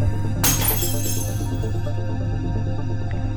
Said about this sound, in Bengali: চায়ের কাপটা তার অজান্তেই হাত থেকে পড়ে ভেঙে গেল